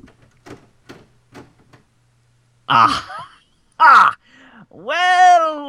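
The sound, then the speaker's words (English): A lid lifted open on a dusty locked container, with a key in the lock, creaks in a few drawn-out groans. The last creak is longest and rises in pitch, after some faint soft knocks. “Oh, there's even a key in the lock. Up goes the lid.”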